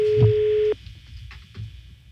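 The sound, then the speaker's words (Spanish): A telephone rings on a call that goes unanswered: one steady mid-pitched ring tone holds for under a second and then cuts off, leaving only low background murmur. “Está sonando, mira, no contesta.”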